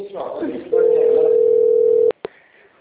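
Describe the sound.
Telephone dial tone while placing a call: a voice speaks, then a loud steady single tone holds for over a second before two sharp clicks cut it off.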